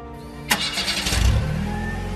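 A car engine starts with a sharp burst of cranking, then settles into a steady, low running rumble that holds to the end with no voices.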